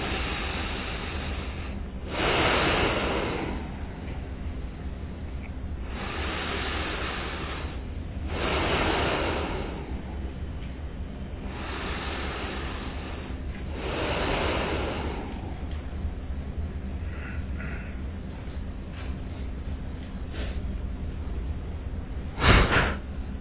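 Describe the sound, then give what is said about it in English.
Slow breaths are drawn in and pushed out through both nostrils during a breathing exercise, several long, soft, noisy inhales and exhales over a steady background hiss. “now third round from both nostrils, okay? Inhale, exhale. Not from the mouth, from nostril, Inhale.”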